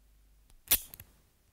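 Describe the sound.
A knife being drawn in a German audio drama: one sharp, bright metallic swish rises out of near silence, followed quickly by two short, lighter clicks, with no talking.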